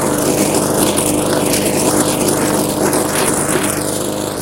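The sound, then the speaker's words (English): A push lawn mower engine runs loud and steady while being pushed back and forth over a bumpy yard. Its droning hum carries a wavering whine that rises and falls repeatedly. “Back and forth now. It's a bumpy ride with the push mower.”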